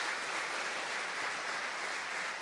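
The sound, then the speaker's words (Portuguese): A church audience applauds during a worship service, giving a steady, dense wash of clapping that holds at an even level throughout. “Dá uma salva de palmas para Jesus.”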